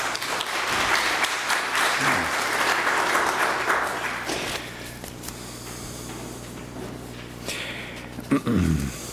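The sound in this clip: Church audience applauding to welcome a newly introduced retired member: loud, dense clapping fills the first few seconds, then thins and fades into quieter room noise, with a brief voice near the end.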